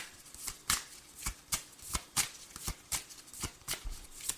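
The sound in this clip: Tarot cards being shuffled: many crisp riffling snaps and papery rustles in short bursts with an uneven rhythm, fairly quiet, with no talk.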